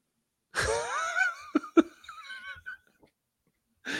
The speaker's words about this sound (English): I wanted to see how long I could mouth breathe before you would interrupt.